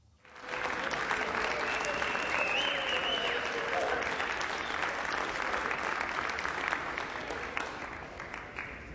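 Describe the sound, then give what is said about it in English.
Clapping from a crowd swells in sharply after a brief quiet start, then holds as a dense, continuous patter of many hands before thinning a little at the end. “What are they clapping for?”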